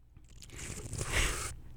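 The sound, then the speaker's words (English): A sip of wine drawn in with a soft hissing slurp that builds for about a second and then cuts off abruptly, faint and alone without talk. “Let me just get another sip here.”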